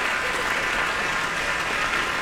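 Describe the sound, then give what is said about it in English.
Enthusiastic audience applause for a young pianist at Kulas Hall during a piano competition for young artists, a dense, steady wash of clapping that holds at an even loudness throughout, with no voices standing out. “Pianist Wilson Liu on stage now, accepting very enthusiastic applause from the audience here at Kulas Hall.”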